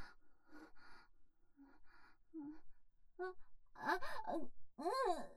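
Breath blown softly in a few faint, airy puffs, followed by louder voiced sighs and breathy exhalations.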